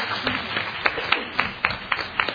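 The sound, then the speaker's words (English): Sparse applause from a symposium audience for a panel, with several distinct claps spaced irregularly over a low, continuous background. “Let's give a round of applause for our first panel.”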